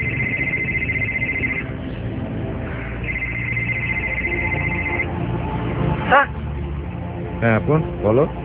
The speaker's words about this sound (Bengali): যখন বোরহান সাহেব এই কথা ভাবছিলেন, এমন সময় তার মোবাইলটা বেজে উঠে।